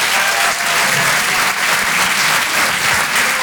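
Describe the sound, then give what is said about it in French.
Audience applause for a comedian at a comedy club: dense, loud, steady clapping that carries on evenly throughout without a pause. “Faites du bruit, s'il vous plaît, pour Hugo Pêcheur.”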